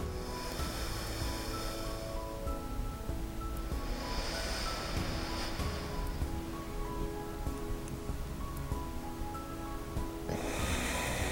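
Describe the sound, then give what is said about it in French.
Alternate-nostril breathing, in through one nostril and out through the other: soft, airy nasal swells with a long held pause between them, set over a faint steady tonal backdrop. “J'inspire par la narine droite. Je bloque. Puis j'expire par la narine gauche.”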